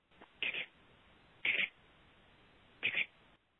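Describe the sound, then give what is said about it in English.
Light, calm purring from a hen: three short, bright, rolling bursts separated by pauses of about a second, faint against a quiet background. “right, and even purring, maybe even light purrs, not aggravated purrs. That to me is a hen that's inquisitive and looking for company”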